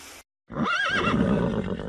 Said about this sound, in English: On the shore, horses walk at a steady pace.